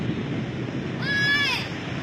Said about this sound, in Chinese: 哎呀，山水下来了。